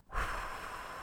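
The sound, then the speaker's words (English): A long, breathy exhalation after drawing on a cigar: a soft rush of air that starts abruptly, peaks quickly and then trails off slowly and evenly, with no talking. “The sound of puffing, then a lengthy exhalation.”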